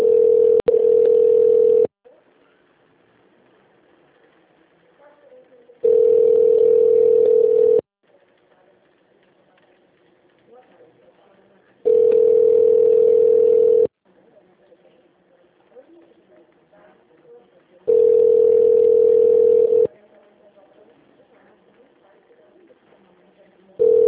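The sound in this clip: Telephone ringback tone while a call is being connected to an office extension: a steady, single-pitched tone lasting about two seconds that repeats every six seconds, four times, with another starting at the very end and faint noise between.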